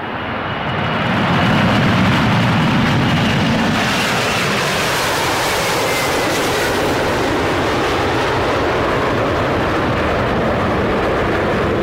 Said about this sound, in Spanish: En este vuelo, sí se permite el uso de dispositivos electrónicos. Despegamos.